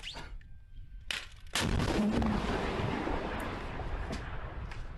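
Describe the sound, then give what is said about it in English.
An artillery gun fires a big rocket in a played video: a sudden loud blast erupts and gives way to a sustained, rushing roar that fades slowly over several seconds. “So that's the angle, seeing the gun itself, and then we'll see the result of sending this big artillery or whatever it's called.”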